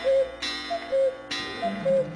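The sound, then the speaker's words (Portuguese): An electronic alarm clock beeps in a repeating pattern of short and longer mid-pitched tones. A sharp click-like burst falls between each cycle. “Despertador do ouvinte das outras rádios. Despertador do ouvinte da Mirante.”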